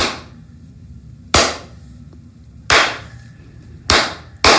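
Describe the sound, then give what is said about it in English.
Hand clapping from a single pair of hands: four sharp, loud claps spaced slowly and unevenly, each standing alone against a quiet background. “When people tell me I'm a side hustle, I literally just clapped like a nerd. It's like very rich and very high budget sound effects.”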